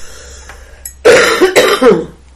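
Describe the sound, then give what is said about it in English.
A person with asthma coughs, with a couple of harsh, loud bursts rising out of a quiet background. “I'm sorry about my cough, but no, it's okay. I'm suffering with them because of the heat that we've had this year.”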